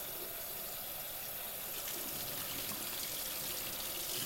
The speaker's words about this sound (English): Rinsing or soaping. Rinsing or soaping.